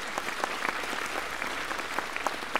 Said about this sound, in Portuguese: Quero um aplauso para todo mundo.